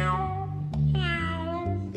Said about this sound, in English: Is the snail doing an impression of a cat? Gary is a snail, and he sounds like a cat.